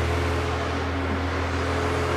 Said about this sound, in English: Man, I didn't know you drove a monster truck.